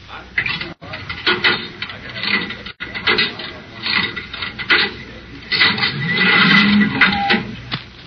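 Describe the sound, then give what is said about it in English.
A cigarette vending machine is worked, giving continuous scraping, rasping mechanical noise with clattering, ratchet-like clicks that surge and ease over several seconds. “Do I have some change for the cigarette machine?”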